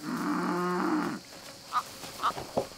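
Cattle lowing: aurochs-like cattle with pale-rimmed muzzles give one long, low, resonant moo of about a second, followed by a few brief, higher calls.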